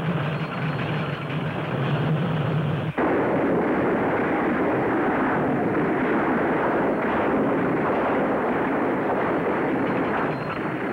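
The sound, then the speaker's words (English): Rifle fire forms a dense, continuous barrage of loud shots blurring into a heavy rumbling roar, with an abrupt change in texture about three seconds in before the firing carries on steadily to the end. “Rifle fire from Dragon.”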